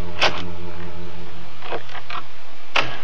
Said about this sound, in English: Presently, a key is quietly turned in the lock, thickening our plot.